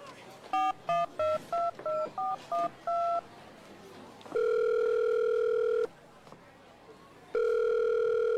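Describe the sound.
Telephone keypad tones as a call is dialed: a quick run of about eight short, steady beeps, followed by two long, loud, steady ringing tones separated by a brief quiet gap.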